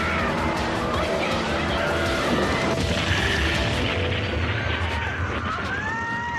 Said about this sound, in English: That is a plane crashing.